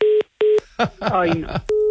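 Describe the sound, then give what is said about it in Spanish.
A telephone busy tone sounds after a call is cut off. Two short, steady beeps pulse evenly, a voice speaks briefly, and then the beeping tone returns. “Sí, vamos a ver, Enrique, que se le ha cortado el teléfono.”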